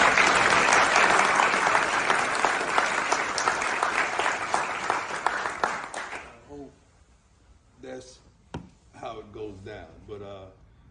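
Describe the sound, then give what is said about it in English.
Loud, dense audience applause fills about six seconds, then breaks off abruptly, and a person starts speaking alone. “So just clap it up for TC.”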